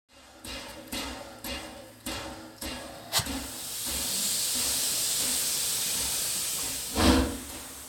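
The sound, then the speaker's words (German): A train running from Lyon toward Chambéry, with a series of evenly spaced clacks that give way to a steady, loud hiss and a brief swell near the end. “Auf der Flucht springe ich auf einen Zug aus Lyon in Richtung Chambéry, in meine Heimatstadt.”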